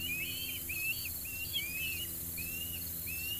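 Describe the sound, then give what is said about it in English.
Osprey calls recorded near a nest on an iron watchtower beside a lighthouse on the Chesapeake Bay: a series of high, thin whistled chirps repeat at uneven intervals over a steady hiss and a low hum. “a family of osprey had taken over an iron watchtower beside the lighthouse, building a nest. I captured their calls with my shotgun microphone.”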